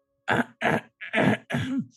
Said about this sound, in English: so I don't startle him just with a with a slightly gentle throat clear.